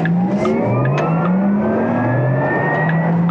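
A Porsche Taycan 4 Cross Turismo electric car driving on a country road gives off a synthetic whining drive sound. Several tones climb steadily in pitch over a continuous rolling road noise.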